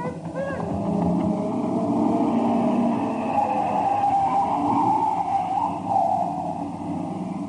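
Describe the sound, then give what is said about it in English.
A car from a farmhouse speeds fast off the road, its engine giving a loud, steady, rumbling roar that holds throughout without a break. “Hey, that car coming from the farmhouse, it's heading right off the road, Pagan. Fast, off the road.”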